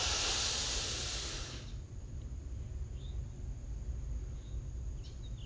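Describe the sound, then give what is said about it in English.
A deep inhale through the nose with the mouth closed and the tongue tip on the roof of the mouth, taken at the end of a breathing exercise: one airy hiss lasting about a second and a half, then quiet. “Closing the mouth, touching the tip of the tongue to the roof of the mouth for one last deep inhale.”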